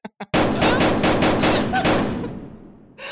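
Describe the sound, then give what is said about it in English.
Gunshots ring out in a rapid, loud burst of many shots in quick succession, preceded by two brief soft knocks, then a long decaying tail before another sound begins at the end. “Okay, gun. That's two shots.”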